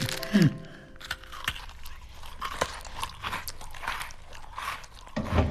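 Someone bites into crunchy cookies and chews: a crisp bite near the start, soft crunchy chewing after it, and another crunch at the end.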